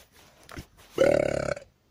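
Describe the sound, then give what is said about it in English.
A single loud burp rolls out for about half a second with a rough, rapidly pulsing texture. Two fainter, brief sounds come just before it, and no one speaks. “Like that burp.”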